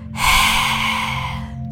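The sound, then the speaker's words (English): A forceful lioness-breath exhale, pushed out through the open mouth with the tongue stuck out: one long, loud, breathy rush of air lasting over a second and tapering off at the end. “maybe doing a lioness breath where you stick your tongue out of your mouth and breathe out.”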